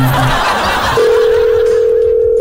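A steady, single-pitched telephone dial tone follows a call to a pizzeria being cut off. It holds unbroken for about a second and a half after a short stretch of muffled noise.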